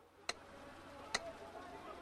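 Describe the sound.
Three crisp ticks from a pyramid-shaped metronome on a bedside table, evenly spaced at a slow, steady tempo, sharp and fairly quiet against a faint background.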